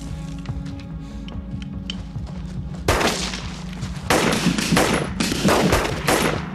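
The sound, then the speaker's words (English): Rifle and pistol gunfire in a shootout with police marksmen: a low steady hum gives way to loud, sharp bursts of rapid shots that begin about two-fifths of the way in and intensify, continuing to the end. “Bryant now jettisons his empty rifle and strides out suicidally, shooting with his pistol. He is felled by several high-velocity bullets.”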